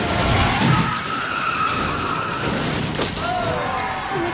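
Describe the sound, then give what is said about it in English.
A Nextel Cup race car loses control and smashes into the sidewall: a sustained tyre screech with a harsh crash and rattling debris. “But then he loses control and smashes into the sidewall.”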